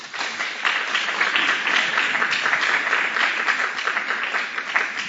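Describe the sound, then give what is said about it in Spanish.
Audience applause at a conference lecture: a steady, dense wash of many hands clapping that holds evenly for about five seconds, with no voices over it. “Los recibimos con un fuerte aplauso.”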